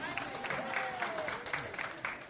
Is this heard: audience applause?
yes